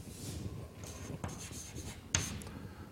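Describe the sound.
Writing on a board, faint scratchy strokes of a pen or chalk scraping along the surface, with a few sharper ticks as strokes begin and one crisper tap near the end.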